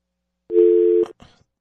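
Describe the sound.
Telephone tone after a phone line goes dead: one short, steady, mid-pitched beep about half a second long, followed by a faint click and crackle on the line.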